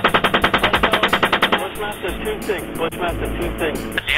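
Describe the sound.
Rapid automatic gunfire during a combat engagement: a fast, even burst of many shots for about a second and a half, loud, followed by a rumbling, noisy stretch.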